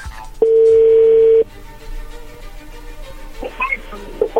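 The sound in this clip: A steady telephone tone sounds on an outgoing call: one even, mid-pitched tone about a second long starts abruptly and cuts off cleanly. A low, busy background follows with a few faint, scattered sounds.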